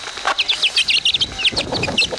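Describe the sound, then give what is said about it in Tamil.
Wet chicken chicks chirp in the rain: many quick, high, thin peeps in a busy, irregular stream over a steady hiss of background noise. “அங்க கோழி குஞ்சுக நனைஞ்சுகிட்டு இருக்கு. அது எல்லாத்தையும் எடுத்து இந்த பரப்பங்குடையில போட்டு வைக்கிறேன்.”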